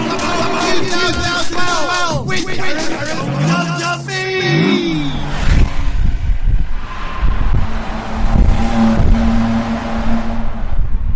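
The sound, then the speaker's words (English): A car drives through a tunnel, its loud, continuous engine and road roar joined early on by other engine tones sweeping up and down in pitch, then settling into a heavier, rumbling drone. “We're just going through a tunnel there”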